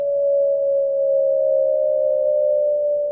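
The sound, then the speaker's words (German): A howling tone from cavities on the underside of Airbus A320 wings, heard in isolation: a steady, near-pure mid-pitched whine that holds constant in pitch and loudness for about three seconds. “Und diese werden erzeugt durch Hohlräume an der Unterseite der Flügel. Diese Heultöne klingen isoliert so.”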